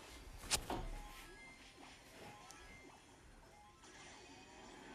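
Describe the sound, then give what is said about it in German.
A wall smashed by an ultimate attack in a video game: one sharp crash near the start, followed by a low, steady rumble of game noise with faint scattered clatters. “Weil das Ulti macht, hast du auch eine Wand kaputt gemacht.”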